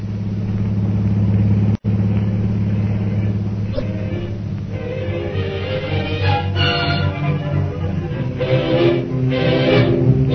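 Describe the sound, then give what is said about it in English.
A car engine pulling away on a drive back toward Shanghai: a steady, loud low rumble runs throughout, then the engine note shifts and builds as the car gets under way. “I'll drive for a while.”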